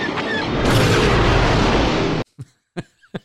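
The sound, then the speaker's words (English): Explosion sound effect of an exploding cockroach: a loud, dense roaring burst that lasts about two seconds and cuts off abruptly, followed by a few short, faint sounds. “I just like the idea of the exploding cockroach at the other end.”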